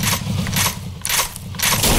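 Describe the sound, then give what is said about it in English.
Shooting effects from a side-scrolling car-chase video game, loud bursts of harsh noise that repeat in a few blocks over a steady low rumble. “I press space to shoot it like that.”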